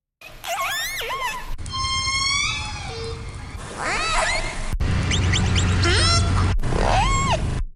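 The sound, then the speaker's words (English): Killer whale discrete calls from different orcas, recorded at different times and spliced into a run of separate segments: loud, high squealing whistles and harmonic calls that bend and sweep, each segment cut off abruptly before the next begins. “I just want to play that again because that's a number of different clips from different orcas at different times.”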